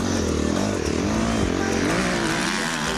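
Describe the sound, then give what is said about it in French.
A motorcycle leans into a turn, its engine a loud, continuous drone with a slightly wavering pitch throughout. “J'essaie de faire virer la moto, mais je trouve pas d'appui. Ce virage-là, je le déteste.”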